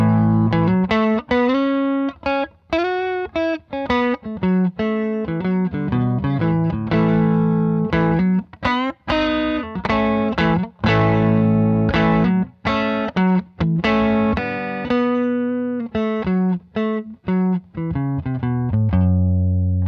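An electric guitar on its neck pickup plays through a Klon-style overdrive pedal with the tone and gain set at noon, giving a continuous run of driven melodic notes and chords with warm, moderate breakup.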